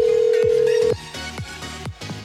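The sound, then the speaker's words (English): A phone ringtone sounds for an incoming call: a steady electronic tone holds for about a second, then gives way to a repeating pattern of short falling notes. “Alright, we're just gonna ignore that phone call because it's probably a secret admirer.”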